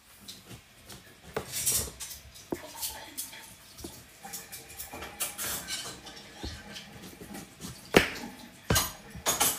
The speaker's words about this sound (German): Ich schneide den Mango.